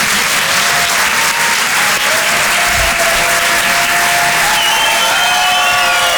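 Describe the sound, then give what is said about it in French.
An audience claps for a comedian at a comedy show. The applause is loud, dense and steady, and it carries on without a break for the whole stretch. “Faites du bruit, s'il vous plaît, pour Arnaud Demanche.”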